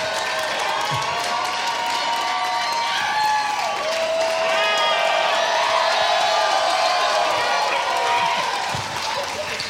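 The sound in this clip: A live audience cheers and applauds straight into a handheld microphone, a dense, continuous roar of clapping with whoops and shouting voices running throughout.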